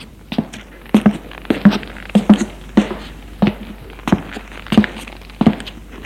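Footsteps of a woman quietly climbing up to her room after coming home at four in the morning: a steady run of many soft, muffled thuds, evenly paced, with no voices.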